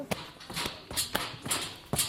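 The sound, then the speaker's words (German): Quiet footsteps climb a staircase, a steady series of light taps and scuffs at an even walking pace. “Jetzt nähern wir uns einer Treppe und gehen jetzt da hoch.”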